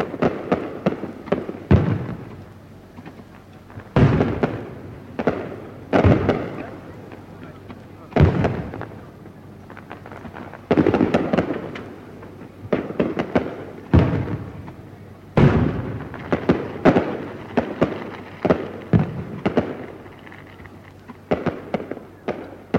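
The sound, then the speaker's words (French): Fireworks burst on the banks of the Sumida river in Tokyo: many loud, sharp booms and crackling pops in an irregular series, some clustered close together, over a low steady rumble. “C'est le feu d'artifice sur les bords de la Sumida que vous m'aviez promis.”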